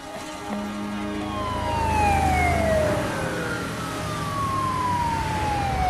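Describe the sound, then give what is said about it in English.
A fire truck siren arriving at a racing track after a crash, its wailing tones sliding downward in pitch over a steady low engine rumble. “a fire truck arrives to put out the flames”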